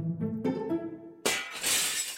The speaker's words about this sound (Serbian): Šta je to? Šta se dešava? Razbila sam čašu.